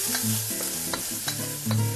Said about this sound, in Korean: 프라이팬에 기름을 조금 두르고 김치를 쫑쫑 썰어 넣은 뒤 찬밥을 넣어 달달 볶은 김치볶음밥을 프라이팬째 들고 오자.